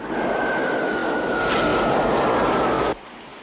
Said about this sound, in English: A transworld plane lands at night.